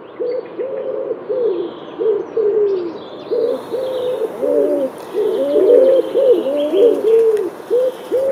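Pigeon cooing: a long run of low, rounded coos repeating steadily, grouped in short bursts with brief gaps, fairly loud throughout and with no voices.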